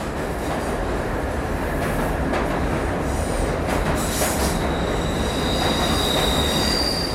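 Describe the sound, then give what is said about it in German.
A subway train rushes past near a meadow in Münster. It makes a continuous loud rumble with high, squealing wheel tones and faint rhythmic clatter, and no voices are heard. “Und sobald jemand vorbeikommt, ist die U-Bahn zu hören, die vor den Augen der Droste vorbeirauscht.”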